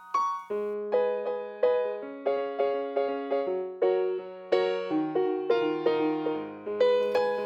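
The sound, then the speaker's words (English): Piano part for a song, played alone at moderate volume. Many struck chords ring and decay in a steady, even rhythm over sustained low bass notes. “So I quickly got some piano on there, even just starting from this first part. And that sounds like this.”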